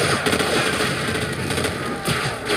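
Video game gunfire from M16s and grenades forms a dense, continuous crackle of rapid shots and blasts, loud and unbroken throughout.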